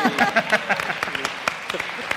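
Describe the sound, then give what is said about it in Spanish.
Audience applause: a short burst of dense clapping with voices talking over it. “¡Un aplauso!”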